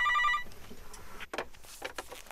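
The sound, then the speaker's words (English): A telephone rings once in a short, steady electronic tone that cuts off quickly, followed by faint scattered noises. “I made a phone call, I got his cell phone, and I rang him up.”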